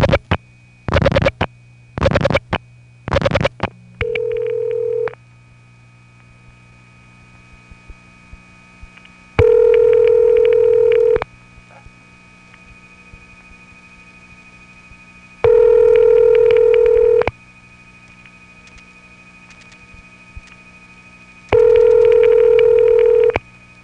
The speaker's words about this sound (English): So I did a long flash to reset the trunk, and now I'll dial a different last 4 digits.